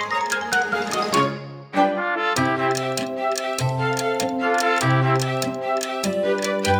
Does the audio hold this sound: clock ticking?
yes